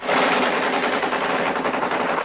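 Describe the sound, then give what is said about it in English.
Rapid machine gun fire from a gang of hatchetmen on a speeding launch opening fire on a yacht, a dense, unbroken rattling burst that stays loud and steady for the whole stretch. “We had a dangerous-looking gang of hatchetmen with machine guns on our launch, and they put up a good show.”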